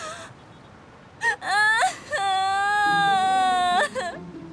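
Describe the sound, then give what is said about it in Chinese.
A person crying: short, high sobbing cries, then a long, sustained wavering wail and a brief final sob, loud and unaccompanied by speech. “你别哭了，有事好好说呀。”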